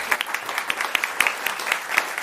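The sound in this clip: Audience applause welcoming a speaker to a university computer science talk: steady, dense clapping from a crowd that stays fairly loud throughout, with no talking over it.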